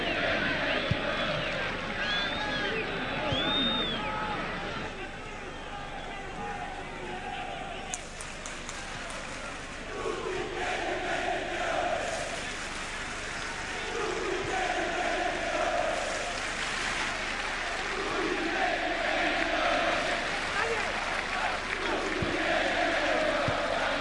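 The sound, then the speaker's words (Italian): Stadium crowd at a football match in Frosinone against Genoa, heard through pitch-side audio: a steady roar with repeated rhythmic chanting rising over it in waves. “Sono stato in silenzio obbligato per farvi sentire l'audio da Frosinone, l'audio del campo”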